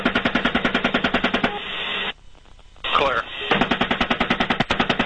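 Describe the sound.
Automatic machine gun fire aimed at adults and children in a minivan: rapid, loud, evenly repeating bursts break off briefly, a voice is heard during the pause, then the fire resumes at the same pace.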